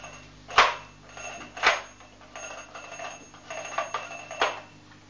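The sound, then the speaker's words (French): A telephone rings after a long international number to England is dialed: two separate ringing bursts, then a longer stretch of several quicker rings, moderately loud, with no talk. “Tu veux que je fasse le numéro? Oui. Alors c'est un long numéro parce que c'est en Angleterre, c'est loin.”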